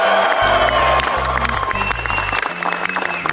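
Applause and cheering from a crowd at the White House welcoming the NBA champion Cleveland Cavaliers, a dense, continuous wash of clapping that stays loud throughout and eases slightly toward the end.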